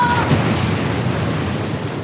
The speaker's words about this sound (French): Et la prison explose.